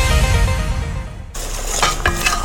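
Pots, pans and utensils clatter in a kitchen during cooking, first as a dense sizzling, scraping wash that stops abruptly, then as a few light clinks and knocks.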